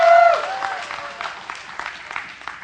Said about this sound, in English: Give Holden a round of applause.